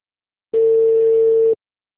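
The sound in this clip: A telephone busy tone after a dropped call: a single steady, mid-pitched electronic beep lasting about a second, clear and alone between silences.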